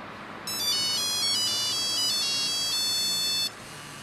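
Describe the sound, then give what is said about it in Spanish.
A telephone rings while a call is placed: a melodic electronic ringtone of bright, high, patterned tones plays for about three seconds and then stops, with nothing else heard beyond a faint, steady background hiss. “A ver, yo le marco otra vez a esta muchacha.”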